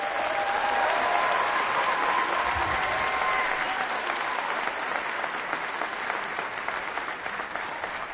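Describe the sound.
Audience applause welcoming a guest speaker: a dense, even clatter of many clapping hands that holds steady throughout and eases slightly toward the end.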